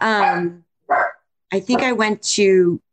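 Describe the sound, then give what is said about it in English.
A dog barking, a few loud, high-pitched, tonal barks and yaps separated by short silences, with a quick cluster of sharp barks in the middle. “no, don't bark, no barking”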